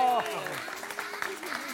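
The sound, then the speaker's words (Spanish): An audience applauds a magician, with light, soft clapping running beneath a voice talking over it. “Un aplauso para Magic Andreu.”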